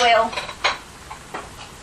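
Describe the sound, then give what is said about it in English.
Springform cake pan being handled, giving brief metallic clatter and a few light clinks, fairly faint and over within about two seconds. “it's also made so that you can make cakes, it's like a spring pan. Oh. That's exactly what it is, a spring pan.”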